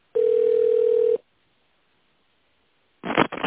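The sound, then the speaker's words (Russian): A telephone ringback tone plays as a call is forwarded to an operator: one steady, loud, low beep about a second long, then silence, then a short noisy burst at the end. “Ваш звонок переадресован оператору.”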